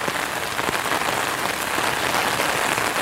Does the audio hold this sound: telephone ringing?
no